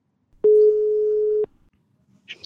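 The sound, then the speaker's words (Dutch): Telephone ringing tone during an outgoing call: one steady, mid-pitched beep lasting about a second, then quiet with a faint brief sound at the end. “Ik ga bellen met Boy.”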